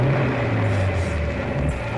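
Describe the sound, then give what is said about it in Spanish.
Car engine revving as a front wheel spins in mud, sunk in a deep muddy ditch on a dark country road, making a steady, low, droning roar that holds throughout without pause. “regresaba por el oscuro camino vecinal cuando una de las ruedas delanteras se hundió en una zanja profunda cubierta de barro. ¡Demonios! El barro hace resbalar la rueda.”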